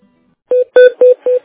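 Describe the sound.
Telephone keypad dialing tones as a call is transferred: four short, evenly spaced touch-tone beeps, each loud and clean, following a moment of near silence.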